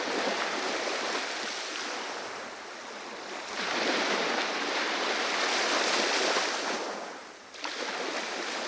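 Waves washing onto a beach make a steady, broad rushing wash that swells and eases, dipping briefly before surging back near the end.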